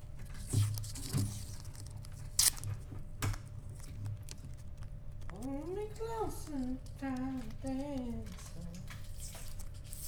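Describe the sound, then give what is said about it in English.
Adhesive tape is pulled off and pressed on in bursts of sharp, ratcheting crackles, loudest early on, and a voice then talks over softer, steady tape noise. “Oh, that sounds really good. That sounds... Putting the tape on? Yeah, it sounds really good.”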